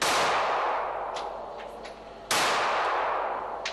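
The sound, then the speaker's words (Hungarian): Loud, sharp gunshot cracks from a real pistol, heard twice a little over two seconds apart. Each is a broad, explosive burst followed by a long fading tail. “A légfegyvernek ilyen a hangja. Ez pedig egy éles pisztolyé.”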